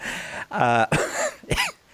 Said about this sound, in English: Why am I coughing?